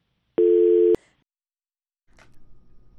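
A telephone tone sounds as a call from Kandahar is cut off: one steady, clean beep of about half a second ends with a click, then silence, then faint low line noise.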